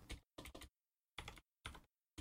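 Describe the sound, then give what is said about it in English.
Faint computer keyboard typing as a name is entered into a search: a few quick clusters of key clicks separated by silent pauses. “let's type in um uh Bankman”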